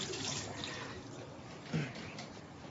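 Water runs from a tap while someone washes their hands, making a steady, low-level hissing rush that continues without a break and has a slight splash partway through.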